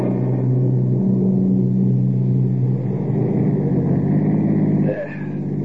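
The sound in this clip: A car engine drones and revs as the driver tries to rock the stuck vehicle free, a continuous loud low rumble with a brief change in tone near the end.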